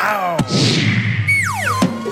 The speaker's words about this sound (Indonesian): Oke, rasakan ini Sep. Tendangan macan ngondek.